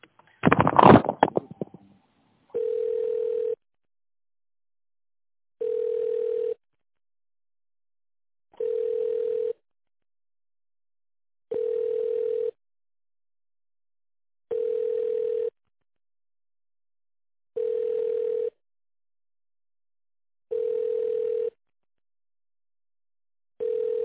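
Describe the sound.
Ringback tone on a telephone line while an office call is being transferred: after a brief clatter, seven steady mid-pitched beeps, each about a second long, evenly spaced with roughly two-second silences between them.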